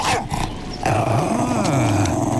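A reindeer-herding dog growls in a low, rough, sustained rumble that wavers up and down in pitch, loud and steady after a brief, choppier start.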